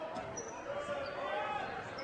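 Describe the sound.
Basketball dribbling during a women's game, repeated ball bounces heard under a commentator's continuous talk.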